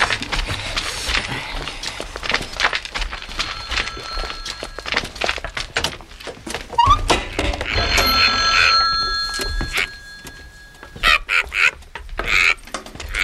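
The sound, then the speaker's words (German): A telephone rings inside a caravan, its ringing tones breaking through in a few bursts among busy clattering and knocking. No voices are heard. “Das rote Lämpchen an unserem Wohnwagen leuchtet. Wir haben einen Anruf.”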